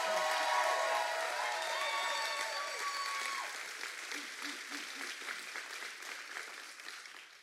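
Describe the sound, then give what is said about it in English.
A church audience applauding a welcome with dense, steady clapping. Voices are mixed in at first, and the clapping gradually fades toward the end. “if you would, give me a loud Freedom House welcome for Anthony Hayes.”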